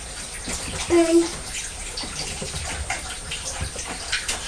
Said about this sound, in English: Just wash your hands